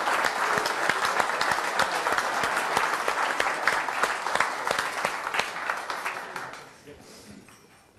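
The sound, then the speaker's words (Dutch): Applause from the audience at a council meeting after a new member is sworn in, a dense, steady patter of clapping that thins out and fades away near the end. “Nou, volgens mij mag u best nu een applausje geven, hoor.”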